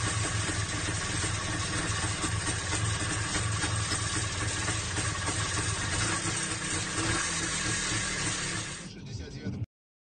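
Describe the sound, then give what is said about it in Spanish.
A motorcycle engine runs loudly and steadily with a dense, rumbling idle, then cuts off abruptly at the end. “Fíjate cómo ha arrancado la moto.”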